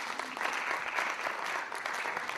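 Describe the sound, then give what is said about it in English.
An audience applauds a guest stepping up onto a platform, a dense, steady burst of many hands clapping at once, loud and continuous throughout. “I'd like you to just give him a clap today as he comes forward onto the platform.”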